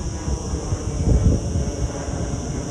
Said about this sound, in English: You may hear an airplane flying overhead.